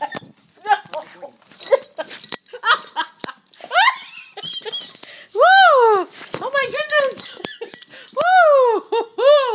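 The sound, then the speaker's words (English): A yellow Labrador gives excited whines, yelps and two drawn-out, howl-like cries in irregular bursts, mixed with scattered clicks and scuffling, with a person's voice heard among them. “Help. I'm being attacked by a yellow Labrador.”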